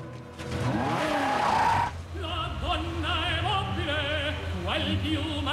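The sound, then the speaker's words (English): A sports car skids to a stop with a loud, harsh tire squeal and rushing noise that lasts about two seconds. It cuts off sharply and a steady tonal sound continues behind it. “A sports car skids to a stop in front of him.”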